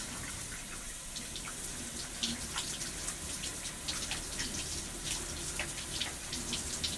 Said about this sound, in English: I'm going to wet my hair